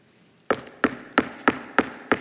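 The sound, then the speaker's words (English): Six sharp knocks on a door land at an even, steady pace, each one loud and crisp with a quick decay, and nothing else is heard around them. “knocking on the door. It's a knock he's been dreading all of his life.”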